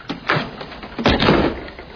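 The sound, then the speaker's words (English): A door is pulled shut aboard a boat. It gives a few muffled thumps and scraping rattles, the heaviest near the middle, with no talk over them. “you want me to close the door here, boss? Yes. It'd be nice.”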